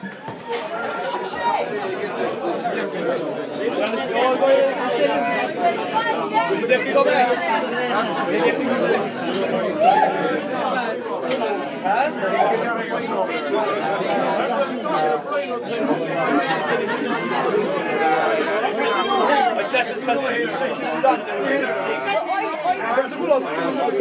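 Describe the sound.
Crowd chatter inside a tiny Irish pub in Cork: many overlapping voices talking at a steady, moderate level throughout, with no single voice standing out from the hum.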